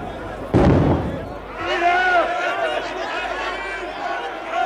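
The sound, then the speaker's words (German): A single loud gunshot bursts out in a radio drama. A crowd of shouting voices swells up behind it and carries on after the blast. “Die Tiefenbacher taten den Schuss.”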